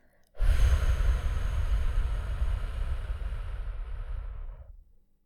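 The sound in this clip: A slow, full exhale through the mouth during a calming breathing exercise: one long, steady breath of about four and a half seconds that begins abruptly and fades out at the end, heard alone.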